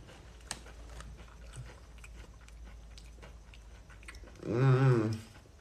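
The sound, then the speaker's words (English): Someone chews a crunchy chip, making soft, irregular crunching clicks, followed near the end by a short, louder voiced hum. “This chip is delicious.”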